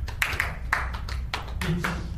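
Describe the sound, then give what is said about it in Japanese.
An audience claps hands in rhythm, keeping a steady run of crisp claps in place of a chanted word in a group call-and-response game. “言ってるつもりで手拍子してください”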